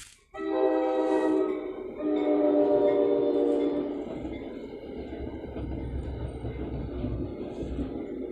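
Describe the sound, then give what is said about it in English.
A passing train sounds its horn in two long, loud, sustained blasts, then a steady rumble and rattle of rolling cars continues to the end. “And hold on, I got the train coming.”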